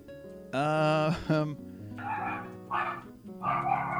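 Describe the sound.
A dog barks and whines: first a long, wavering high whine, then a few rougher barks in short bursts.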